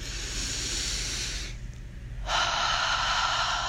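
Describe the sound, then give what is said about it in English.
A big inhaled breath during a guided breathing exercise: a long, airy hiss of breath that drops away briefly midway, then returns louder and steadier. “take a big inhale in.”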